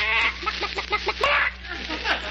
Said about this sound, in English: They didn't steal our chicken after all.